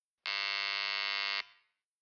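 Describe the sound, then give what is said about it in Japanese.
A door buzzer at a second-floor apartment in a housing estate gives one steady, harsh electric buzz lasting just over a second, then cuts off with a brief fading tail. The tone is fairly faint and sounds alone. “俺はドアの前に立ち、ブザーを押す。”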